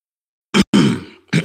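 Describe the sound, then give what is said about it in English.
A person clears their throat in three gruff bursts: a short one, a longer rasping one that trails off, then another short one, with silence before them. “sometimes you need to clear the throat to express the truth. Let me clear my throat.”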